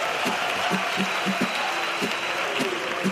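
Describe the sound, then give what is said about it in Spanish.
A theatre audience claps to vote for a contest winner, producing dense, steady applause of many hands at an even level throughout. “Y que aplaudan los que crean que ha ganado el empresario.”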